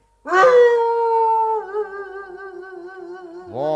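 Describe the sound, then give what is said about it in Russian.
A person imitating a dog howling at the moon in a radio play: one long, loud howl that rises sharply, then holds a steady pitch and slowly fades, with a second howl starting at the end. “может быть, нам сделать так, как мы лаем на луну?”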